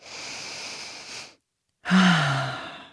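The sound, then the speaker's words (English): A person takes a deep breath alone: a long, airy inhale, a short silent pause, then a heavier, louder sighing exhale that slowly fades. “So I choose to take a deep breath.”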